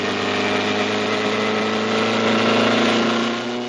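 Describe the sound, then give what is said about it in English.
A racing car's engine drones steadily during a road race, a loud constant hum that swells slightly near the end. “With both hands on the wheel, Mancini passes Lucky on the left.”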